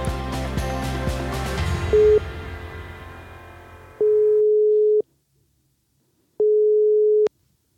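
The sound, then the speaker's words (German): Ringing tone of a telephone call being placed: a steady, pure mid-pitched beep sounds briefly, then two longer beeps of about a second each follow with silent gaps, after an earlier sustained tonal sound fades out. “ich habe bei unserem Kreisvorsitzenden Ingmar Jung und unserer Spitzenkandidatin Daniela Georgi angerufen und wollte wissen, was gibt's Neues und wie läuft's?”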